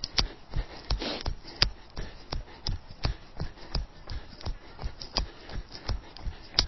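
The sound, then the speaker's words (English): Footsteps of someone jogging during a running workout of all-out 300s: a steady, even rhythm of many soft, quick footfalls, each a short dull thud, continuing throughout at low level. “Okay, I'm just going to jog to where I need to be for stretches.”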